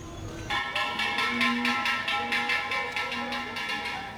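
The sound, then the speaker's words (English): Someone taps on metal butane gas canisters in an alley in Egypt, producing many steady, evenly spaced metallic clinks with a bright ringing tone that start after a brief pause and continue at a regular rhythm. “That sound is a crucial sound. This is someone tapping on butane gas canisters.”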